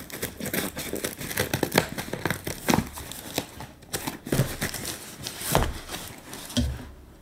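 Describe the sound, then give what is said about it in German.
Crinkling and rustling of packing paper as it is cut with scissors, giving many sharp, dry crackles and snips in an uneven rhythm, moderately loud with no talk. “hantiert gerade wild mit ihrer Schere rum.”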